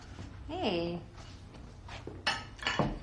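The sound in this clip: Dishes clink as they are dried in a kitchen: a few faint, sharp clinks of crockery in quiet surroundings.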